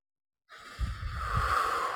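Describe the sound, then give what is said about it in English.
Deep breath drawn in through the nose, starting after a moment of silence as a single soft, airy rush that builds and holds steadily to the end, with no talking. “Another nice deep inhale through your nose. Exhale through your mouth.”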